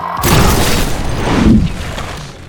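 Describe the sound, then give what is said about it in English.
A loud booming blast from exploding bird droppings, a dense roaring rumble that holds for about a second and a half before tailing off. “Oh, and their droppings explode.”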